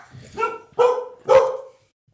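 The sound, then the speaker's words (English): Dogs barking, a border collie and a Havanese, giving three sharp, mid-pitched barks in quick succession, loud and alone, with silence after the last one. “You guys can hear the dogs barking. So they have a border collie.”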